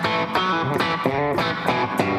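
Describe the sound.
Distorted, tone-rich musical notes pass through a distortion effect on a range of settings from clean to overdrive. Several sustained notes change in a steady sequence, loud and buzzy throughout.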